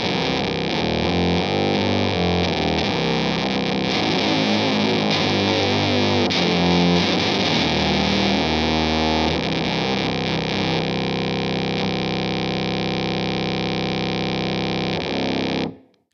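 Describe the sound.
A wild fuzz effects pedal running a lower octave on guitar tuned to C standard, a loud, dense, grinding synth-like distorted tone with heavy low end, sustained steadily before cutting off.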